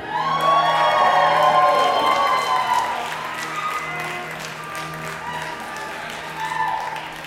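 Crowd applause and cheering with whoops welcoming a national anthem singer at an event. Loudest in the first seconds, it eases to a lower, continuing clatter of clapping and scattered shouts.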